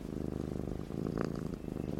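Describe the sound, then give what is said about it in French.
A cat purrs steadily in a quiet, low, rhythmic rumble, its fast pulses continuing without a break from start to end, with no talk over it. “Ça marche, professeur, il ronronne.”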